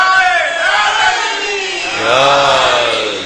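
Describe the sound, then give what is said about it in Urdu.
A crowd loudly chants the Haidari slogan in two drawn-out collective shouts of many voices in unison, the second swelling a little louder after a short dip. “یہ جو میں اور آپ نعرے حیدری لگا رہے ہیں”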